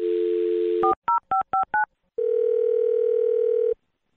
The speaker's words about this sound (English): I'm going to dial this one over right now.